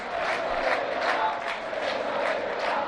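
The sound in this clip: Rayo Vallecano football fans cheer and celebrate in Vallecas, a diffuse crowd roar of many voices holding a fairly faint, even level without distinct words.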